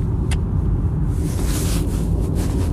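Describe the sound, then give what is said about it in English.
Steady road rumble from a car driving in heavy traffic on the I-25 highway: a continuous low drone with a wind-like hiss, no talking. “I am in like massive traffic zone, of course. I-25.”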